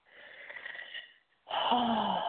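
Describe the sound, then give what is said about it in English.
A deep breath drawn in softly and steadily, followed after a brief pause by a louder, breathy exhale carrying a faint voiced hum, with no other sounds around it. “Deep breath.”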